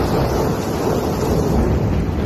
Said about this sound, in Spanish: esto es un trueno español porque de Florida, de Palm Beach, de esos no teníamos